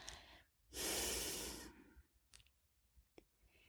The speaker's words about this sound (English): Exhale fully to the count of five.